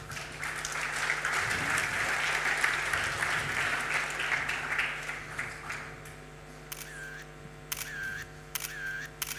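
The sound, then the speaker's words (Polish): Audience applause greets the start of a team's presentation at a contest: dense, steady clapping for about six seconds that then fades, followed by a few sharp clicks over a low steady hum. “Zapraszamy na prezentację. Brawa.”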